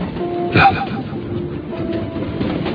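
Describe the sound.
A passenger train carriage rolls along the rails with a steady low rumble, and a brief louder bump comes early on.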